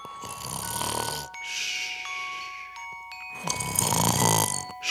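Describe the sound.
A voice imitates snoring while dozing off: two loud, drawn-out, rasping snores separated by a quieter breath, with no speech.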